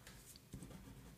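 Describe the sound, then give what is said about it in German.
Pen strokes on a paper note sheet, as someone writes something out in large letters: faint scratchy scraping in a few short bursts, quiet throughout, with a slightly louder scrape at the very end. “So, ich schreibe es mal ganz groß auf meinen Zettel.”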